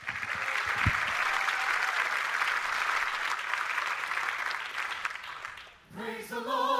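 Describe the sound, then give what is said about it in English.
A church audience applauding to welcome a visiting gospel vocal group: dense, steady clapping that lasts almost six seconds and then fades, after which singing and music begin. “Church, I want you to give a big welcome to Roger Breland and the Voices of Mobile.”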